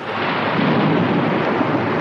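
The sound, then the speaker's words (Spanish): Thunder during a storm, a loud, continuous low rumble with a hissing, rain-like wash over it, rolling steadily for about two seconds without a break. “Eso sí es un trueno.”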